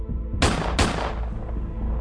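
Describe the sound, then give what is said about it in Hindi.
Two sharp gunshots fired at point-blank range during a night-time shooting of a man come about a third of a second apart, each a loud, broad crack over a steady low background. “Dhingra ने दो और गोलियां उन पर दाग दी।”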